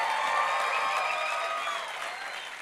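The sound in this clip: An audience applauds the worship team with steady, even clapping that tapers off slightly toward the end.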